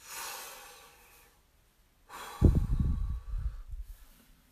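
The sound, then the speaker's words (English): Someone takes a deep breath: a slow, airy inhale, a short pause, then a longer, louder, breathy exhale that tails off. No one speaks. “Just take a deep breath. So there, I took a deep breath.”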